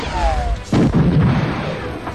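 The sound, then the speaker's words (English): A sci-fi blaster gun fires a bolt: a thin, slightly falling electronic whine gives way to a loud, booming burst that rumbles and crackles briefly before fading. “The blaster bolt ricocheted off Zaval's sled and struck the support pillar nearest the door, burning it half through.”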